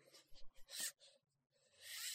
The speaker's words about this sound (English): if you'll excuse the noise, I'll actually get out the tape measure.